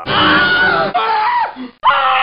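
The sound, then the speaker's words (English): An audience at a comedy show screaming on cue, loud and sustained at a high pitch, in three bursts broken by brief pauses, with one voice sliding downward partway through. “Scream if you want the comedy to go faster.”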